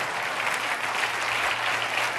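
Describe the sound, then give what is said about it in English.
Audience applause for a man who has just curled 50 pounds: continuous, dense clapping from many hands, loud and even from start to finish, with no talk over it. “Would you give him a round of applause?”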